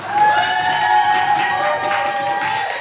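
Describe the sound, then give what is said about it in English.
Audience applause and cheering welcome a stage performer in a red dress: a steady, dense wash of clapping that fills the whole stretch, with faint sustained tones running underneath. “I want to now put your hands together. It's Mzz Kimberley and her red dress.”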